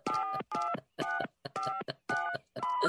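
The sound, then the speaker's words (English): Telephone keypad dialing tones beep in six evenly spaced, mid-pitched bursts, each roughly half a second long with short silent gaps between them, standing alone without voices. “Fingers you have used to dial are too fat. To obtain a special dialing wand, please mash the keypad with your palm now.”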